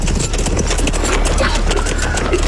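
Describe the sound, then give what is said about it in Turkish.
Riders on horseback approach with a dense clatter of many hoofbeats, loud and continuous, mixed with voices. “Atlılar geliyor efendim. Atlılar.”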